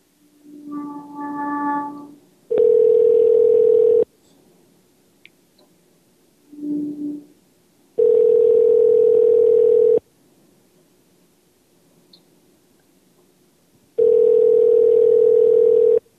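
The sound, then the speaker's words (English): Telephone dial tone while a number is being dialed: three loud, steady tones, each about two seconds long, separated by quiet gaps and by two shorter, softer buzzy tone bursts. “Seems to be some difficulty getting that number to dial now, suddenly.”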